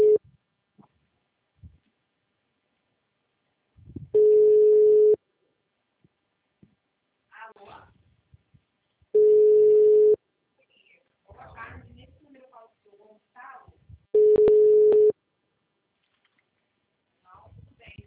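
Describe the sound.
A telephone rings out on a call, heard as three steady single-pitch ringback tones about five seconds apart, with people talking quietly in the gaps between them.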